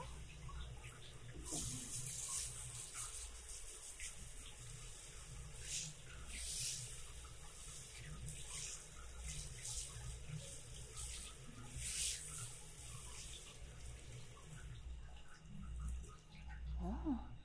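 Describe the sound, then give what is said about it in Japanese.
Running water rinses someone's back during washing, a steady, continuous splashing stream that holds at an even level for the whole stretch. “背中も流していくぞ。”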